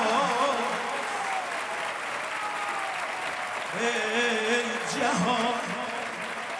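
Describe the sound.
Sustained applause from a crowd, many hands clapping in a dense, steady wash, with a voice carrying over the clapping throughout.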